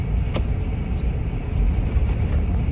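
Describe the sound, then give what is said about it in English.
A car driving down the road as the driver heads home in the fall: a steady, low rumble of engine and road noise with no talking. “I'm recording as I'm driving down the road, heading home.”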